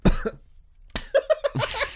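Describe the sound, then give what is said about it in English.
Harsh coughing from someone with crisps stuck in the throat: a few sharp, loud bursts with a short choked, voiced sputter between them. “For you special listeners there tonight, a cough in your ear. Oh, I'm so sorry. There's Pringles stuck in my throat.”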